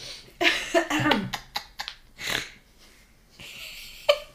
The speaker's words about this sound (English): you like my snort? Didn't mean to do that.